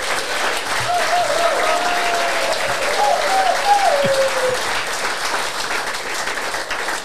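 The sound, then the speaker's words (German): Audience applause at a talk show, a steady, dense wash of clapping that holds at an even loudness for several seconds. “Ja, so Applausometer tun wir gerade testen, ob das auch wirklich funktioniert”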